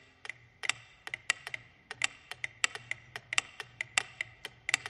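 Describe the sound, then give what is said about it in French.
A mechanical clock ticks in a steady run of many sharp, crisp clicks at a brisk pace. Some ticks are louder than others, over a faint low hum. “Henri Bergson prit l'exemple de l'horloge mécanique.”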